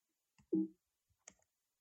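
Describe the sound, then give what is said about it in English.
A computer mouse clicks a few times, short faint ticks alone in near silence, one slightly fuller click standing out among them. “Sorry, okay, got a click with the mouse.”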